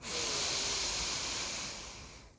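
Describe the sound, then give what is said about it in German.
A person inhales steadily through the nose, producing a continuous breathy hiss that holds for about two seconds and then tapers off softly at the end. “Ich atme ein durch die Nase.”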